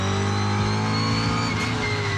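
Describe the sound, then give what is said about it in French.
A V8 engine in a rally car with a light engine tune, suspension work and a hydraulic rally handbrake runs with a steady, rich harmonic drone, its note wavering slightly without a clear rise. No voices are heard. “Tout de suite, il y a quelque chose qui m'enchante des oreilles. C'est le son du moteur V8.”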